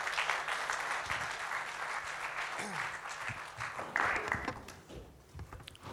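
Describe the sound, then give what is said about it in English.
Sustained audience applause welcoming a guest speaker, a steady dense wash of clapping that swells briefly near the end and then thins, with some talk faintly beneath. “Can we just put our hands together for Nath as he comes?”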